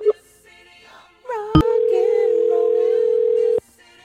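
A telephone dial tone ahead of a prank call begins with a sharp click, then holds as a loud, steady, unwavering tone for about two seconds before cutting off abruptly.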